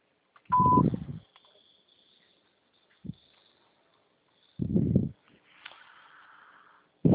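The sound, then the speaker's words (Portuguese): A voicemail tone sounds once as a short, mid-pitched beep just before message recording, overlapping a burst of low rumbling noise. Quieter thumps and faint rustling follow. “Sua chamada está sendo encaminhada para a caixa de mensagens e para a sujeita cobrança após o sinal. Após o sinal, grave sua mensagem.”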